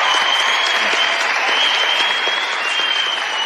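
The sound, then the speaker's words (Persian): Loud, steady applause from a studio audience on their feet, an unbroken roar of clapping that lasts the whole stretch. “حالا هیچ کس نتونسته انقدر به وجدشون بیاره بلند شن وایسن براش دست بزن.”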